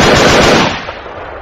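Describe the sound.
A rapid volley of gunfire from guns fired together by riders on horseback: a dense, loud crackle of overlapping shots for about half a second, then an abrupt drop to a short, fading tail.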